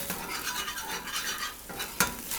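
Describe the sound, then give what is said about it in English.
Curry paste and coconut milk being stirred in a pan: continuous scraping and sizzling swirls in an uneven rhythm, with one sharper clink of the utensil against the pan near the end. No voices. “a couple of tablespoons of coconut milk in each pan and a couple of tablespoons of the curry paste. Not quite 1-to-1, a little more paste to milk. So I'm stirring the blended one.”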